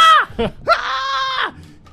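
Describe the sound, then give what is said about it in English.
A voice imitating a rebel yell scream: a couple of short yelps, then a sustained, strained, high-pitched screech that holds for under a second before cutting off. “He just starts screaming like that while he starts attacking fucking Joe. And Joe is like confused. He's like rebel yelling at this.”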